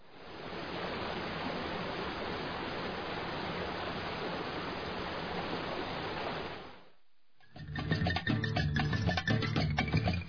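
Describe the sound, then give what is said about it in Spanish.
Steady, dense roar of a huge waterfall about 300 metres high in a nature reserve, a continuous rushing wash for roughly seven seconds that drops away briefly before a different, busier sound takes over. “Ubicado en la parroquia Rumipamba, a 17 kilómetros del cantón Sangolquí, es una reserva natural donde podrás admirar su enorme cascada con una elevación de 300 metros.”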